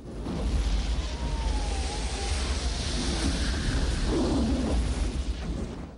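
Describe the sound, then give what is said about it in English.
A flamethrower sends flames billowing across the surface of water, producing a loud, sustained rumbling roar that swells at the start and stays heavy and unbroken for about six seconds. “One fires his flamethrower. Flames billow across the surface of the water.”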